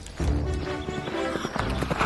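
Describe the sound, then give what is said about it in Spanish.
A horse's hooves clip-clop as its rider spurs it off at speed. The hoofbeats are a rapid, uneven run of muffled thuds, moderately loud and heard alone. “Y diciendo esto, dio Don Quijote espuelas a su caballo Rocinante”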